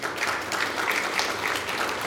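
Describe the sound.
Audience applause, a dense, even wash of clapping at a moderate level that holds steady throughout the short stretch.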